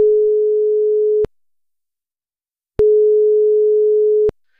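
A telephone tone sounds after a number is dialed: two long, steady, mid-pitched beeps of equal length, separated by a silent pause, loud and alone.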